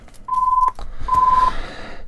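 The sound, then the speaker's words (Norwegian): A telephone rings during a bingo game: two steady, mid-pitched electronic beeps, each under half a second, with rustling and breathy noise around them. “Og der ringer telefonen.”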